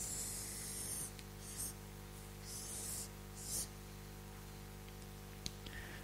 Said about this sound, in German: Ich schreibe mal nur Manifestation.